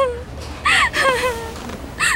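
A child cries in short whimpering wails and gasps, with rising and falling pitch, broken into a few bursts across about two seconds.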